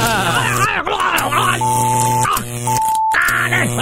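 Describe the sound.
An electric shock buzz effect in a comedy courtroom sketch: a steady droning buzz runs beneath groaning, strained voices, with two short high beeps laid over it.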